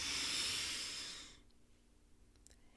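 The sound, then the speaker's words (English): A deep inhale through the nose during a guided breathing exercise: a loud, airy rush lasting just over a second, then near silence. “So we're going to take a deep breath and we're going to hold for a few seconds. In through the nose.”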